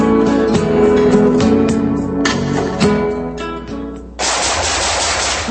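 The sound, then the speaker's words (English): Gunfire, loud rapid automatic shooting in dense, overlapping volleys, followed by a harsher, noisier blast that runs to the end. “Nice shooting.”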